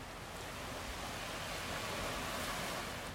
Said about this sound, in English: As you keep your attention on the sound of the waves,